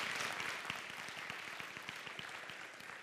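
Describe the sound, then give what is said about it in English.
Faint, steady applause from a church audience, a dense patter of clapping that continues throughout with a few sharper individual claps standing out. “And so you can clap for that.”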